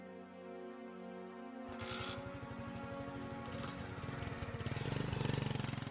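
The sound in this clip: A motorbike engine on a ride, a pulsing, mid-pitched putter that kicks into a stronger rhythmic beat partway through and grows gradually louder toward the end.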